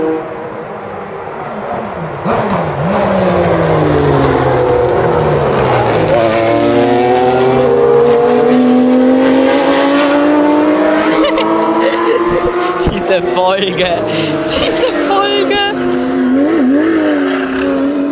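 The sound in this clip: Cars driving loudly on a track, their engines roaring continuously with pitch sweeping up and down as they pass, layered with overlapping engine whine and brief squealing.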